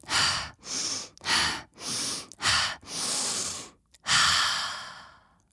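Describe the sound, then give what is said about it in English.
Slow, deep breathing as a person inhales and exhales several times in an even, calm rhythm, each breath audible and airy, ending with a long drawn-out exhale that fades; no talking. “I chose the emoji breathe five times.”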